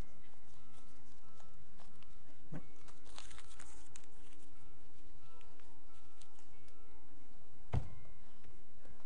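Foot stomps on a twenty-dollar bill, making dull thuds over a steady background hiss, with the sharpest and loudest thud coming near the end.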